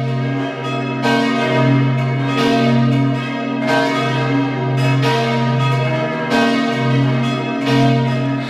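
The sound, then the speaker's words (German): Church bells ring out at noon from a church in Hart, Vorarlberg: a loud, sustained peal of several bells with steady, overlapping strikes and a long, humming resonance between them. No voices are heard. “Es ist 12 Uhr. Sie hören die Glocken der Kirche zum heiligen Sebastian in Hart in Vorarlberg.”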